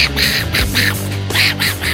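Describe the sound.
A man mimics a cartoon duck's garbled, quacking speech while being arrested: a few nasal, buzzy bursts of squawky voice in quick succession, fairly loud and continuous.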